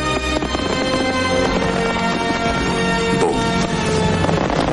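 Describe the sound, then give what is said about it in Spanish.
Fireworks exploding in a Western drama set in the 1990s film era, a dense, loud barrage of booms and crackles layered under sustained music, with no talk. “Se gira y apunta hacia los fuegos artificiales que muestran luces de color rojo, azul y blanco.”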